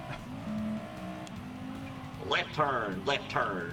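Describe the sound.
A car engine roars in a racing video game, holding a steady, pitched drone before people start talking over it.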